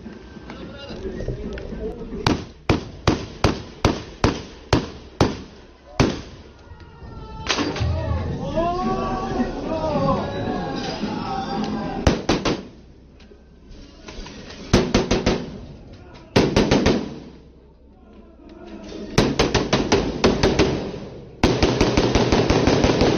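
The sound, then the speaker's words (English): Gunfire as a shooter approaches and fires on people near a mosque doorway in Christchurch: many sharp, loud shots in rapid bursts, with shouting and crying voices between volleys. “He begins firing as he approaches.”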